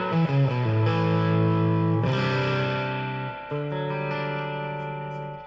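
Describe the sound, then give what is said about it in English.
An overdriven electric guitar amp rings out with clean, spacious reverb, playing loud, sustained distorted chords with several fresh strums that hold and slowly decay, no voices. “Overdriven, but the reverb is so clean.”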